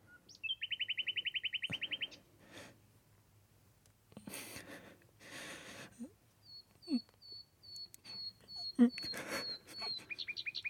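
Bird chirping: a rapid trill of many high chirps opens, followed by scattered soft rustles and clicks, then a run of short, high whistled notes and another quick chirping trill at the end, all over a faint low hum.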